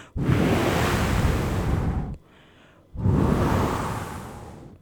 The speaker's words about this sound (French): Le bruit de Monsieur le vent,